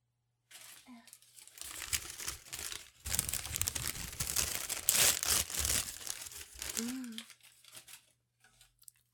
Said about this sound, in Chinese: 好像还有包装要拆开啊